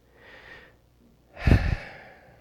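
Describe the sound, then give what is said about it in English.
Deep breathing: a soft, hissing breath is followed by a stronger, louder one with a low, puffing rush of air that then trails away, with no talking. “Just kind of slow down and start taking some deeper breaths.”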